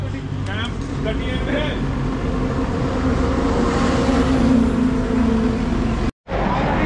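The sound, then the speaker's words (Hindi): A car pulling in for a puncture repair, its engine a steady low rumble under talk, with the sound cutting out briefly near the end. “तो guys यहाँ पे गाड़ी आ रही है फिर एक और पंचर लगवाने के लिए”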